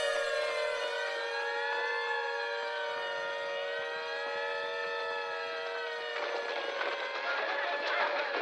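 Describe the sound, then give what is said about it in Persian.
An air raid siren wails during an air raid drill, loud and sustained from start to finish with layered steady tones, and rougher noise joins near the end. “الان نمیشه، مانور حمله هوایی داریم.”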